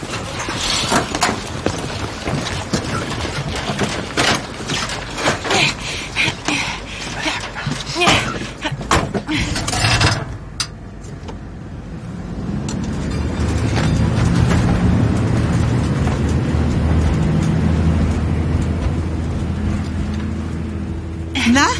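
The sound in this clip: A fire engine with its youth fire brigade crew: busy clattering and knocking as the crew climb aboard, then the truck's deep engine rumble builds and holds steadily as it drives back.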